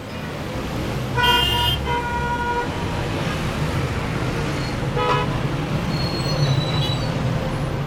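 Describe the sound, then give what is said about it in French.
Car horns honk over a dense rush-hour traffic jam in Tehran, a steady roar of engines underneath. A few horn blasts stand out, the loudest and longest early on, then shorter toots later. “Alors là, il est 17h et c'est l'heure de pointe à Téhéran. Tout le monde sort du boulot et rentre chez soi et ça crée des embouteillages pas possibles.”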